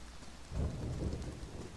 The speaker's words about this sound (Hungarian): Ó, valószínűleg a villámlás. A villámlásnak volt ilyen effektje körülöttem.